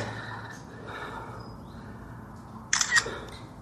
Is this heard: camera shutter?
yes